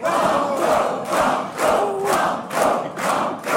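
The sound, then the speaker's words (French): A large, warm audience in the Halle des Mariniers cheers at a quiz show, urging a contestant on. The crowd shouts in loud bursts that pulse in a steady rhythm about twice a second. “Dans cette halle des mariniers, public nombreux, chaleureux pour vous encourager à tenter le banco”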